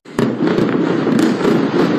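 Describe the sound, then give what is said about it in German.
Heavy explosions from an Israeli airstrike on southern Beirut shortly after midnight, aimed at an underground bunker: a sharp blast bursts in and rolls into a sustained, loud roaring rumble, with another burst partway through. “Kurz nach Mitternacht wieder schwere Explosionen im Süden von Beirut. Ziel des israelischen Luftangriffs soll erneut ein unterirdischer Hisbollah-Bunker gewesen sein”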